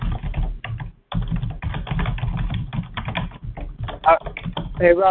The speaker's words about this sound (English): While you're typing